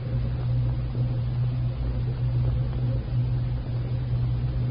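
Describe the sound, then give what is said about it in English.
A car being driven on a cold gray afternoon, heard as a steady low engine drone and road hum that holds at an even level throughout with no voices over it. “on a cold gray afternoon, Mary's devoted friend, Dr. John Benson, is driving her home after a daily visit to Max in the county hospital”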